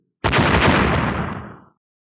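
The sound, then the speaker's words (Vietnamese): A single loud explosion as two fireballs strike a huge boulder and shatter it, a dense roaring blast with a sharp onset that gradually fades out over about a second and a half. “Một hồi nổ mạnh vang lên.”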